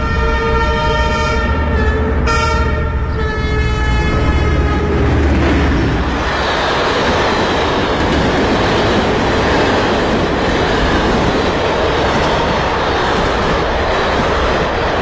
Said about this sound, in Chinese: 王爱对各种声音感兴趣，这天他在铁路边录下了火车经过的声音。